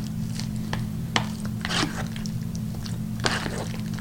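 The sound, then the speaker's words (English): A spoon stirs pasta with tomatoes, greens and pesto sauce, giving a few soft, squishy scrapes over a steady low hum. “So you have this nice, the tomatoes, the greens, you know, the noodles, you have the sauce on the bottom here. So let's definitely stir this up.”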